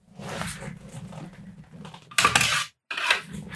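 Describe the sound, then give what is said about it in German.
Trousers on a trouser hanger are lifted out of a wardrobe. Light clattering and rustling build to a louder rattle of the hanger near the end, followed by a brief pause and one more clack. “Er holt seine Hose aus dem Schrank.”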